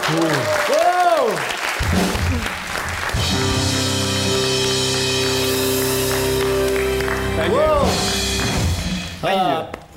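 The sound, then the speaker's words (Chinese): Audience applause breaks out at a Cantonese variety show to congratulate a singer on releasing a record. It is mixed with sustained musical tones and has speaking voices at the start and near the end. “嚟緊咧有第二個掌聲嘅，恭喜曬你啦！”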